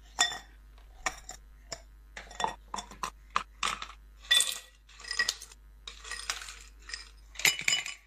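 Ice cubes clinking in a glass, many bright, irregular clinks and rattles in uneven bursts, some louder than others.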